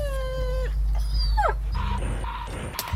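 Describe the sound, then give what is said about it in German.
Dogs whimpering over food, with thin high whines and yips, some sliding downward in pitch, moderately loud above a low rumbling background. “Die Hunde standen total auf unser Futter.”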